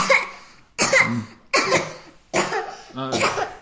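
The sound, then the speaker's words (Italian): A storyteller imitates a wolf with coronavirus coughing: five rough, breathy coughs in an even rhythm, the last with a more voiced, rasping tone. “Continuava a tossire intanto.”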